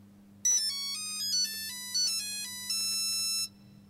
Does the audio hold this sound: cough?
no